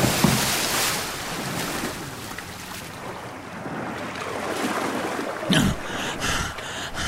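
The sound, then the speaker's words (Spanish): Sea water washes steadily as someone dives in, mixed with wind noise. The wash stays fairly even throughout, with a brief louder burst near the end. “Voy a tener que zambullirme. Muy bien. ¡Allá voy!”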